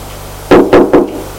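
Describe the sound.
Knocking on a door: three firm, low thuds in an even rhythm, loud against a faint steady hum, followed by quiet.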